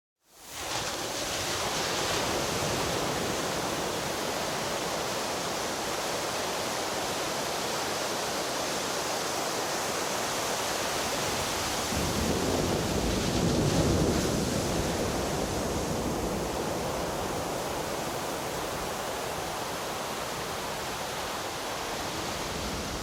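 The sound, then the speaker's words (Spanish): Stormy sea waves and wind roar continuously, a loud, unbroken rush of surf and spray that swells briefly around the middle before settling back to the same churning level. “El mar se enfurecía por momentos.”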